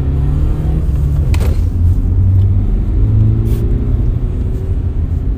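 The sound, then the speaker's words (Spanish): A car accelerates as the driver presses the gas pedal, giving a loud, continuous low engine rumble with a steady droning tone and no talking. “el agente Ramírez pisó el acelerador”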